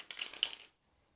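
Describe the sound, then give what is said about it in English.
Tarot cards being shuffled: a brief burst of crisp, papery flicking and riffling, fairly soft, lasting about half a second before silence. “just take a moment and connect to the cards by listening into the sound of them being shuffled”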